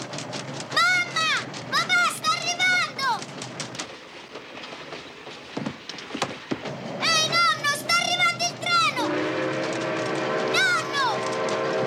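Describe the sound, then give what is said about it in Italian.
A train approaching, with a loud, continuous rumble and clatter that runs through the whole clip. People's voices and shouts rise over it, including some high, sliding cries. “il treno e viene verso questa stanza.”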